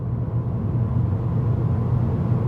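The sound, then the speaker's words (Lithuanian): Steady low rumble of a 20-year-old washing machine running, a continuous even drone with no talk over it. “Tai 20 metų senumo skalbyklės garsas.”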